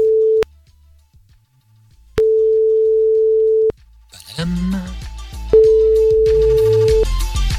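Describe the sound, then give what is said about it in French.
Telephone ringing tone heard while dialing a number: three long, steady mid-pitched beeps separated by gaps, with other sounds and noise joining in from midway through. “Et on compose le numéro tout de suite.”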